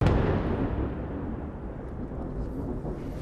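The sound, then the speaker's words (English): An Israeli airstrike explosion in the Nabatea district: a loud, deep rumbling boom that hits at once and rolls on as a steady, heavy low roar without a break. “We've been here for about 10 minutes and there's been a wave of very intense Israeli airstrikes. We've just heard another one, and we can see the plumes of smoke rising from the locations”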